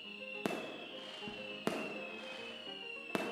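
Fireworks at the end of a staged scene: three sharp, loud bangs spaced more than a second apart, each with a ringing decay, over a steady sustained tone.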